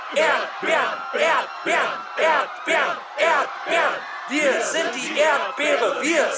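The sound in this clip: An angry crowd at a strawberry field whose gates have been closed chants loudly in German, repeating the same shouted phrase over and over in a steady rhythm of many rising bursts.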